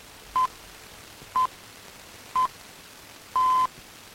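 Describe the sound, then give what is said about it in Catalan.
Radio time signal pips sound before a Catalan station goes off the air: three short beeps spaced a second apart, then a longer fourth tone, all faint over a steady hiss. “Doncs queden només 5 segons perquè això es produeixi. De fet, 10, perquè hi ha els senyals horaris pel mig.”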